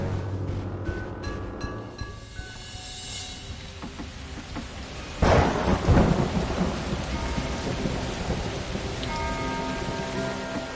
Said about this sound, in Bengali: কড়কড় করে বাজ পড়ার শব্দে চমকে উঠে ঘুম ভেঙে গেল নীলুর।